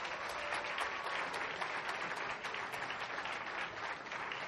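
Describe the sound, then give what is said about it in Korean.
A church audience applauds a young member after an imitation, a faint but continuous blur of clapping that stays level throughout. “다시 한번 뜨거운 박수 부탁드릴게요”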